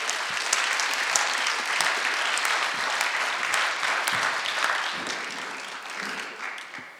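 Audience applause for the UPS Man contestant in a Christmas-themed contest: a dense, sustained wash of clapping that holds steady and then gradually thins toward the end.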